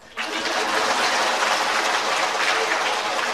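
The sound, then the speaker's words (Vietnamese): Sustained audience applause at a Buddhist dharma talk in a monastery. After a brief quiet start, dense, steady clapping holds at an even loudness to the end. “Hay vậy không? Vỗ tay.”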